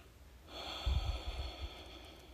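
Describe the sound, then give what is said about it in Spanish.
A slow exhale through the nose makes a soft, breathy rush that starts about halfway in and eases off over a second or so. It is faint and heard alone. “Y exhala por la nariz despacio, percibiendo la calidad de este instante.”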